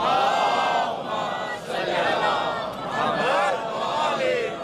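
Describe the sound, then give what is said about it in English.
A gathered crowd recites a salawat together, many overlapping voices chanting loudly in unison in a couple of swelling phrases. “Can everyone please recite a loud salawat?”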